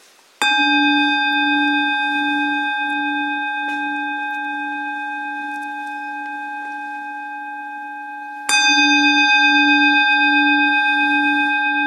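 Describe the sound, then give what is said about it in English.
A meditation bell is struck twice, several seconds apart. Each strike gives a clear metallic onset followed by a long, steady ringing tone with a gently pulsing low hum that slowly fades. “Please please listen to the sound of the bell.”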